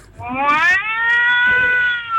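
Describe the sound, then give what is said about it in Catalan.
A person's voice imitates an angry cat with a loud, drawn-out caterwauling meow. The pitch climbs, then holds steady and strained for about two seconds, with no other sounds. “Jo vaig a imitar a un gat. Un gat. Vale? A un gat enfadat.”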